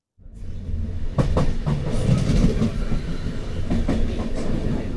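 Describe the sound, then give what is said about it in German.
A regional express train rolling across the Po plain near Bergamo: a steady rumble of wheels with a clickety-clack rhythm and a few sharp rail clicks, continuous and fairly loud after a brief silent start. “Der Regionalexpress rollt durch die Po-Ebene.”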